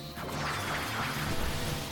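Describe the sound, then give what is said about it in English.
The Twin Turbo triple tech attack from the video game Chrono Cross lands as a dense burst of crashing, smashing impact effects over a sustained wash of noise, with a louder swell near the middle. “Oh, Twin Turbo, they're doing a triple tech.”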